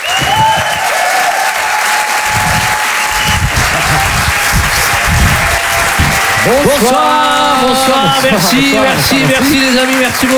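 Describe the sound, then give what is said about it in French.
A theatre audience in Paris applauds loudly for a live comedy duo, the dense clapping and crowd noise lasting about seven seconds before a man begins speaking as the applause fades. “En direct et en live sur Rire et Chanson, faites du bruit s'il vous plaît pour les jumeaux.”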